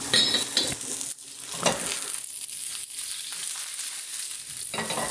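Eggplant sizzles in hot oil in a pan while being cooked for a vegetarian dish; a continuous crackling fry with scraping stir strokes and a few brief dips in the sizzle.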